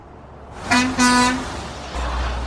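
A truck's horn sounds two toots, a short one and then a longer one, over a low engine rumble. The engine grows louder and steadier near the end.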